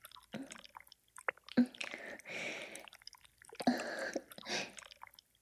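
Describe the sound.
Shower gel being rubbed onto skin makes soft, wet squishing and slippery rubbing sounds in several quiet bursts with pauses between them, heard on their own.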